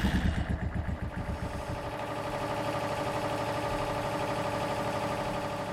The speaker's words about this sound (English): The sound of the generator beginning to fire up sounded more like triumphant fanfare than the workings of machinery